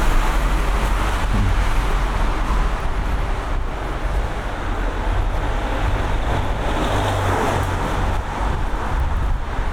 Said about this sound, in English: Question is if one can tell that there's more traffic today.